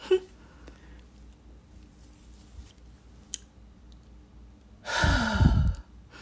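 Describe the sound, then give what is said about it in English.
A person lets out a single heavy, loud breath, a deep sighing exhale near the end, after a quiet stretch broken only by a faint click. “I had to breathe after all that.”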